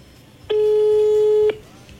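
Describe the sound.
Telephone tone while dialing: a single steady, fairly low electronic beep lasting about one second, loud and alone, starting and stopping abruptly.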